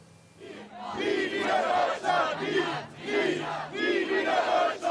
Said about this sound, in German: Rund 750 Menschen ziehen aktuell laut Polizei durch die Bremer Neustadt. Die Veranstalter sprechen sogar von 1000. Sie demonstrieren gegen den Tag der deutschen Einheit und die Feierlichkeiten.